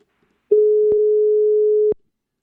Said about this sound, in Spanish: parece que se ha cortado la llamada